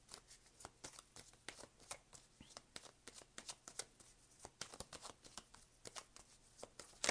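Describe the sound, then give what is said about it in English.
Tarot cards being handled as one is drawn from the deck: many quick, crisp snaps and flicks in an uneven rhythm, quiet overall. “All right, let me get one more card here.”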